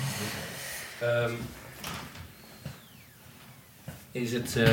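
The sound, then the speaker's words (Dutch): A window is opened with a few dull clunks and a short squeaky scrape, heard between stretches of people talking. “Doe weer even de raam open. Ja, doe maar. Het wordt heet.”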